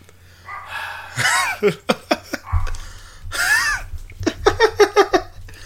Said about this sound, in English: Sorry about the dog. But the dogs agree with me. They're like, yeah, Andrew. No, the dog just barks a lot. It won't stop.